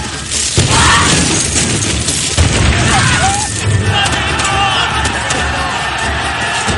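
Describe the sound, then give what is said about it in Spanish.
Grenades exploding in a ship's hold during a battle at sea, heavy booms rising out of a loud, continuous din of crashing and clamor. “¡Granadas, ahora! Prenden granadas que arrojan a las bodegas.”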